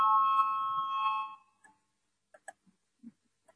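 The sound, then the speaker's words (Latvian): A parliament voting bell rings with a steady electronic tone for about a second and a half, then cuts off, leaving only a few faint clicks. “Lūdzu, zvanu, balsosim par 20. Tieslietu ministra Bordāna priekšlikumu.”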